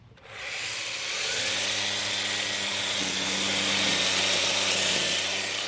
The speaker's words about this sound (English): Luckily, I've got a little battery-powered weed whacker, so I'll just fire that up.